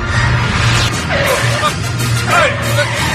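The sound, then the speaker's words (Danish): A car braking, with brief falling tire squeals over a steady, loud wash of road and engine noise. “Og jeg hugger lige bremsen i her. Ja, ikke håndbremse for helvede.”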